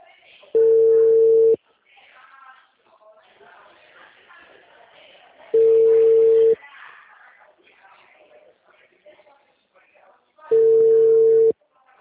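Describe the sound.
A telephone ringing: three steady, mid-pitched tone bursts of about a second each, evenly spaced roughly five seconds apart, with faint voices talking in the gaps between them.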